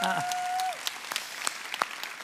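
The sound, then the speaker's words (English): Audience applause at a church service for a band that has just performed. The clapping begins as a sustained tone cuts off and continues as a steady, crackling patter of many hands. “Give them one more round of applause.”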